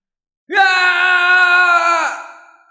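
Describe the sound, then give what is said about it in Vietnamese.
A man shouting loudly with all his strength, one long sustained cry at a steady pitch, loud and held for about one and a half seconds before trailing off. “Thạch Hạo hét lớn, dùng mọi sức lực, cả người dâng trào tinh khí”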